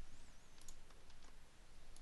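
Faint, soft clicks of code being typed on a computer keyboard: a few light keystrokes over a quiet background hiss.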